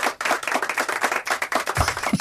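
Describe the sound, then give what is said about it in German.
Restrained applause from a small studio team voting on a singing challenge. A few hands clap sparsely and unevenly, fairly quiet, with individual claps distinct rather than blending into a wash. “Relativ verhalten Applaus.”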